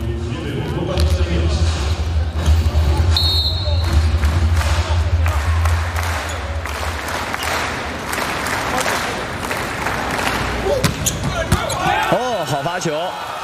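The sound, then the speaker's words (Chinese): A substitute serve in a men's volleyball match involving the Chinese team: sharp ball strikes and bounces ring out amid a noisy arena crowd, with voices talking over the action throughout. “杨宝奇上来替补发球”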